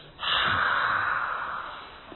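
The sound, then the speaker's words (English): A single long, open-mouthed breathy huff, like fogging glasses before wiping them, starts abruptly and holds as a steady airy rush. It then slowly fades over about two seconds, with no speech. “that is the sound of the letter H, also known as, in Sanskrit, called Mahaprana, which means big breath. You know how people clean their glasses sometimes?”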